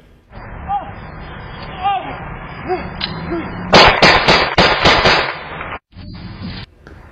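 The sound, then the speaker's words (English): Gunshots captured by a home security camera at night: a rapid cluster of several sharp, loud cracks in quick succession, following quieter talking, with a brief silent dropout and more noise afterward. “running out of frame as shots are fired. It's unclear where the shots are coming from.”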